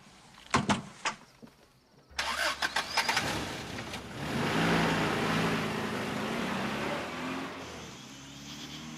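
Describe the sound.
A car engine starts and runs as the car drives along a river road in thick mist at twilight. A few sharp clicks come first, then a steady, loud engine rumble continues to the end.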